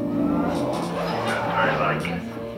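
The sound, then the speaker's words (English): Bumper cars at an art exhibition whir and rumble with a steady motorised hum and occasional squealing rises while people talk over the ride. “The exhibition boasts several bumper cars, all designed by different artists to represent different personalities as you drive through a very talkative video installation. Let's give it a whirl.”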